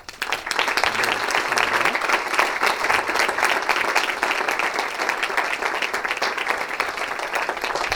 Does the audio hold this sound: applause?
yes